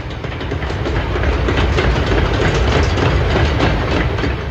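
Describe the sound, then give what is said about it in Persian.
A rail inspection trolley runs along train tracks with a loud, steady rumble and a dense, rhythmic clatter of wheels over rails, continuous throughout without voices. “سوار درزین انسپکشن شدم و رفتم به بازدید خط.”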